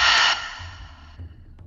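A deep exhale during a guided breathing exercise: one loud, airy breath out that cuts off abruptly and leaves a faint, quiet tail.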